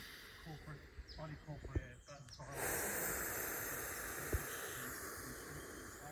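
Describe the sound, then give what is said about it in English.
Soft breathing during a meditation, a quiet airy breath with a gentle hiss that swells into a steady, low rush of air partway through, with no talk. “Just gonna have a small breathe while this energy moves.”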